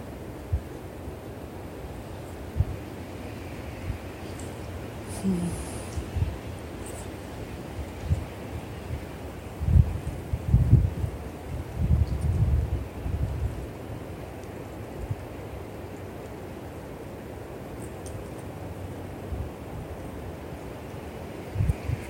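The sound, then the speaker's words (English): Wind blows through trees and rustles the leaves, a steady low, broad rush that swells into stronger gusts midway before settling back to a soft, even wash. No voices are heard. “Feeling into the wind here, the sound of the wind and the trees. The trees give the wind voice.”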